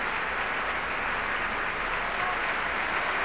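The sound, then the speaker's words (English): Audience applause at a live opera performance of Lohengrin at the Met as the conductor returns to the orchestra pit: dense, steady clapping from many hands throughout. “And he's asked the orchestra to stand. You can hear the appreciation of the audience.”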